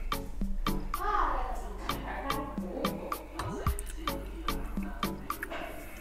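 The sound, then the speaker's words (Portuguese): Liquid poured from a frying pan drips and trickles in a quick series of small splashy drops, some louder than others, with voices talking faintly underneath. “Vou pegar de volta então a frigideira e vou aqui despejar. Vamos trocar aqui. E vou despejar aqui, olha.”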